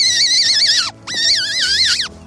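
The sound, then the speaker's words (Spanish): A deer call blown on a squash leaf split down the middle and cut into a reed gives two long, shrill, warbling cries, each wavering in pitch and dropping sharply at its end, with a short gap between them. “Una hoja calabacera, partiéndole por el centro y haciéndole la lengüeta para que pueda cantar como el ciervo.”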